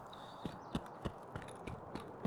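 Footsteps of a running player in a video game shooter, a steady, evenly spaced series of soft thudding footfalls, each a short dull knock over a quiet background.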